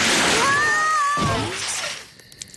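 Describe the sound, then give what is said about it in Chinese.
A water cannon sprays water over burnt marshmallows: a loud, broad hissing rush with whistling tones riding on it, which holds for about a second and a half and then thins out into quieter noise. “烤焦？水枪启动。”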